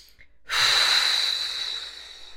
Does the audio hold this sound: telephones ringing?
no